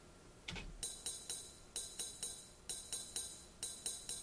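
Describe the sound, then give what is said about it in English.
A straight eighth-note ride cymbal part: an even, steady stream of bright, shimmering cymbal strokes that ring briefly between hits, with a single lower thump near the start and no voices. “For instance, listen to this straight 8th note ride cymbal part.”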